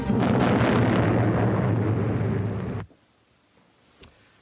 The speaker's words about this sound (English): All guns reported ready. The captain gives the order to open fire.